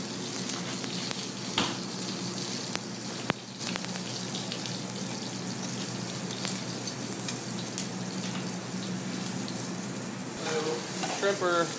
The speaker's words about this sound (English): These are the potatoes we blanched off, and I'm gonna get them nice and seasoned, lay them out in the plancha flat, let them get a nice crispy sear on one side, and then flip them over and let them finish off.